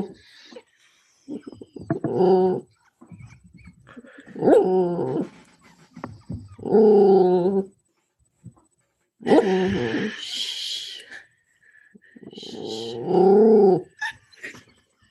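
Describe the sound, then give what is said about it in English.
A dog growls in several drawn-out, rough bursts separated by short silences, each rising to a loud, throaty rumble before cutting off, with no other sound between them. “Hold on, let me see if I can relate to this dog. How about now?”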